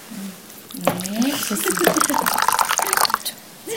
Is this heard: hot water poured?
yes